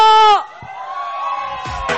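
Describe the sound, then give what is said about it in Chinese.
A nightclub crowd screams and cheers, with a loud shouting voice at the start, then drawn-out whooping and cheering that swells again at the end. “今天晚上来了多少的朋友我希望听到你的尖叫声有吗”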